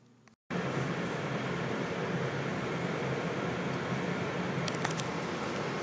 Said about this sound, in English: We are now taking the subway over to Chinatown for today's show.